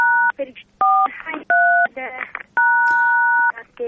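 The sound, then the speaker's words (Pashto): Telephone keypad tones as buttons are pressed during a call: four loud dual-pitch beeps, the last held for about a second, with voices talking in the gaps between them. “دا د بټنو غږونه راځي د تلیفون د بټنو بخښنه غواړم”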